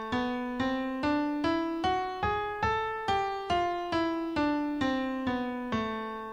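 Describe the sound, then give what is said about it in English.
A piano plays a melodic minor scale as an even series of single struck notes, each ringing and then decaying, climbing step by step in pitch before turning and stepping back down. “So if we play the melodic minor scale going up and then going down, it sounds like this.”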